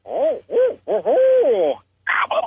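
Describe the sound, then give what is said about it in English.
A barred owl hoots in the early morning with a run of rhythmic hoots, each arching in pitch. They build into a long, drawn-out wavering call, and after a short pause a rougher burst of calls follows. “I could walk out my door early in the morning. You hear it old barred owl,”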